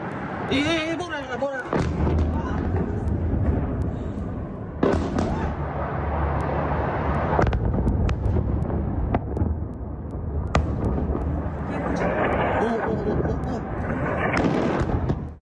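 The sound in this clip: Explosions from possible Israeli bunker buster strikes on Tehran: many sharp cracks and heavy booms over a continuous rumbling roar, with voices talking over them.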